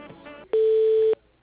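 A single steady electronic tone sounds as a phone call is transferred to voicemail. It is level in pitch, lasts about half a second and starts and stops cleanly, with faint low noise before and after.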